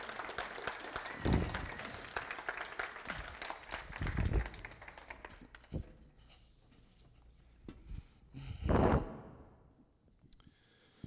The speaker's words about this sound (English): Y'all make some noise as Pastor Joey comes up.